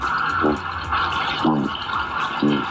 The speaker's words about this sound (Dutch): Eén vis is bijvoorbeeld kabeljauw. Laten we even luisteren.